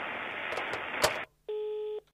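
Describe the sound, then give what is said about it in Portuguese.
A telephone rings with an incoming call: one steady electronic tone, about half a second long, sounds alone after a stretch of loud hiss cuts off abruptly. “acho que dá pra gente encaixar mais uma ligação, hein? O que, que vocês acham? Aí, tá tocando já, deixa eu atender aqui.”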